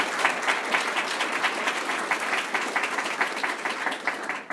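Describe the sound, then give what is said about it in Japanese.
Sustained applause from an audience honoring awardees at a ceremony, dense and steady clapping that continues evenly for the whole stretch without a pause. “皆様、もう一度盛大な拍手をお願いいたします。”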